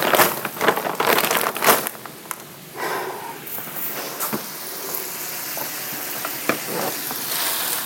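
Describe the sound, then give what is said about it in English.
Hot oil sizzles as frozen vegetables are stirred in a pan with fish. The crackling hiss is loudest in the first two seconds, then settles to a steady fry with occasional scraping stir sounds and no talk. “I'm just stirring the vegetables so that they can start to thaw in with the warm fish and the oil.”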